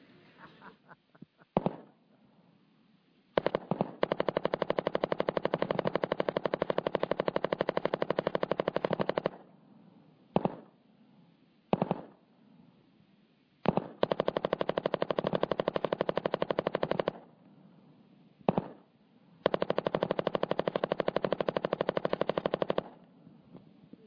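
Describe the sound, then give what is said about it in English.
A real machine gun fires in sustained, rapid automatic bursts, three long runs of continuous fire broken by several short, sharp bursts, loud and unbroken by talk. “And if you don't believe me, I'm just going to show you just half a minute of my utter joy, and then I want you to see the smile on my face. Because I'm shooting a real deal machine gun. Check it out.”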